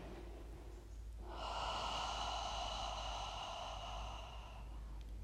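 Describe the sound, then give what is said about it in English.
A gentle, slow breath drawn through the nose during a guided breathing exercise, heard as a long, soft, steady rush of air that is faint and alone, with no talk. “let's take a gentle breath in through the nose. Making space in the body. Exhale, let's just clear it out.”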